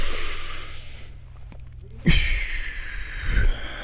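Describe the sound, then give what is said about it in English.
A big, deep breath: loud, breathy rushes of air drawn and let out like a long sigh, with a quieter gap between them. “So now that we're all stretched out, take a big deep breath.”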